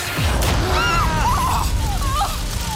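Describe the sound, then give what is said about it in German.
Sci-fi heat ray weapon firing, a loud burst followed by warbling, sliding electronic tones that swoop up and down in pitch. “Los, weg hier! Komm! Komm los! Sie schießen mit... Ja, wie soll man das nennen? Mit einer Art Hitzestrahl.”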